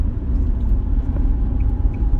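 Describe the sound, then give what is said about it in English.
Car driving at night on the way to a medical center: a loud, steady low rumble of engine and road noise, continuous with no breaks and no voices. “I'm out in the car on the way to the medical center”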